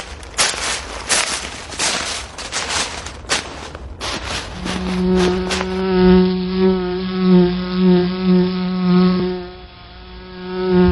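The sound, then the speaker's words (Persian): Honeybees buzzing around their hive make a steady, droning buzz with strong harmonics that swells and fades in repeated pulses. It follows a few seconds of crackling, rustling noise. “آها، دیدمش. چند تا زنبورم دارن دوروبرش میچرخن. نیشمون نزنن. نه عزیزم، زنبورای عسل بی خودی کسی رو نیش نمیزنن.”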